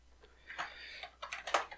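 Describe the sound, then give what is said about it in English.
Typing on a keyboard: a few faint, quick clicks scattered irregularly, growing slightly busier toward the end, with no voices. “Let me just type loudly.”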